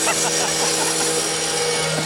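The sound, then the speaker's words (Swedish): A road saw cuts up asphalt on a street in Östersund with a continuous, loud grinding drone and a high whine that stays steady throughout. “Klockan 6:30, då drar vi igång här längs Rådhusgatan i Östersund och sågar upp asfalten.”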